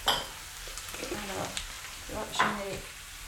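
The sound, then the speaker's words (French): Rice for two to three people is added to a hot pan and sizzles, a quiet frying hiss under a few stirring scrapes and light clinks of a utensil against the pan. “Je vais ajouter mon riz.”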